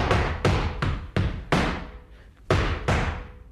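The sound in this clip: A llamada, a rhythmic call performed after a cierre closing, rendered as seven sharp, ringing percussive strikes: five in quick uneven succession, a brief pause, then two more.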